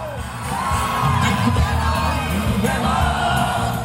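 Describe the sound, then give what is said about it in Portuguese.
Concert crowd going wild and singing along in chorus to a Japanese anime theme played over loudspeakers, a loud roar of whoops, yells and massed voices that swells early and stays strong throughout. “Quando as colunas disparam a música gravada, o público vai ao rubro e canta em coro.”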